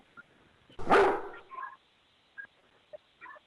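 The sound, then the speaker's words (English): A dog barks indoors, where it has been brought in blindfolded. One loud, sharp bark is followed by a few much fainter short yips and whimpers over quiet background noise. “Okay, who? I think it's a dog.”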